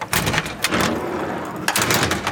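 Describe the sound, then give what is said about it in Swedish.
A hatch opens on a Stridsfordon 90 combat vehicle in a garage. Loud metallic clunks and scraping bursts cluster near the start, with another burst near the end. “Här sitter vi, 6 stycken soldater. Och ja, de här luckorna här går ju att öppna.”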